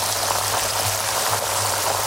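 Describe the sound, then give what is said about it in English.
A pair of 32-day matured, award-winning sirloin steaks fry in pure Irish butter, giving off a dense, even sizzle with fine crackling that holds at a constant loudness from start to finish. “This is the sound of a pair of 32-day matured, award-winning sirloin steaks cooking in pure Irish butter.”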